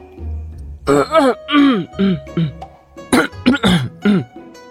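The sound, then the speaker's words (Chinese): A man gives a nervous, feigned cough, a run of many short voiced coughs and throat-clearing bursts in two clusters, loud and close, with brief pauses between them. “展昭莫名一紧张，望天咳嗽。”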